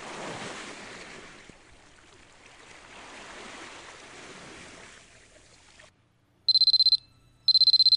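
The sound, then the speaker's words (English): Waves of an incoming tide wash in with a steady, rushing surf that swells and eases. The surf then stops, and two short, high-pitched electronic beeps follow. “You still have time to see the tide come in with me.”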